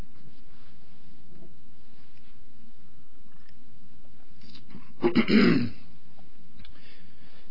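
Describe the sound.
Someone clears their throat once: a short, rough, guttural burst of a couple of quick pulses, heard alone over a faint steady hum.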